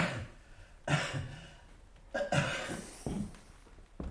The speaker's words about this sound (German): Husten.